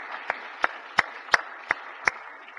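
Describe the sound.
Six sharp, evenly spaced hand claps in the Missouri Senate welcoming a guest, each crisp slap landing at a steady rhythm over a faint background hiss.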